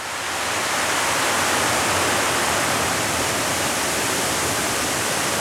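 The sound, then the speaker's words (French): Water flowing in a small protected river valley, a steady, loud, full rushing sound that stays even and continuous throughout, with no voices. “Vous entendez donc de l'eau couler.”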